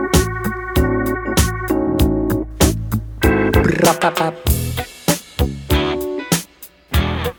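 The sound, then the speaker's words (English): Crisp snare drum hits crack through the intro of a song over sustained keyboard chords and a deep bass line. The strikes keep a steady groove and grow sparser toward the end, with no singing. “So that's snare.”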